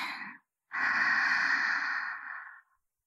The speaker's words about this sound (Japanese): 吐いて、息を吸って、